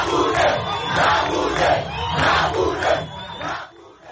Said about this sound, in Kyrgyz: Мугабенин президенттиктен кетүүсүн талап кылган демонстрациялар бул күндөрү борбор Хараредо дагы өтүүдө.